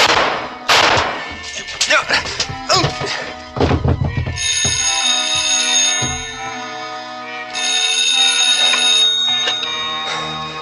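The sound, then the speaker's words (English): Sharp gunshots fired in a clock room crack through a busy, cluttered mix, followed by a loud, sustained ringing bell-like tone that holds to the end. “Two shots, but he missed.”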